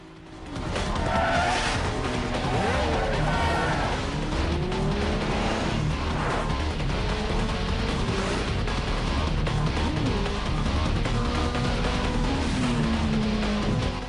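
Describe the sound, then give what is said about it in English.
Motorcycle engines roar in a chase as riders swerve through oncoming traffic, a loud, dense and continuous engine drone. Whining and squealing sounds are layered on top throughout. “Ford and Trey swerve through oncoming traffic”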